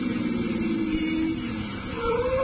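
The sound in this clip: A car engine drones steadily as the car slows down, a continuous low hum that dips briefly in level near the end before picking up again.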